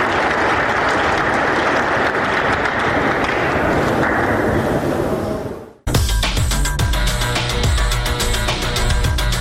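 Applause for sports displays by young people and children: dense, steady clapping for about six seconds, then it cuts off abruptly into a different tonal sound.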